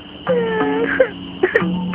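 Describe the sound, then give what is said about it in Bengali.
A baby cries on an empty road at night, giving a few wavering, strained wails broken by sharp catches of breath. “এত রাতে ফাঁকা রাস্তায় বাচ্চার কান্না কোথা থেকে? আশেপাশে তো কোনো ঘর বাড়িও নেই।”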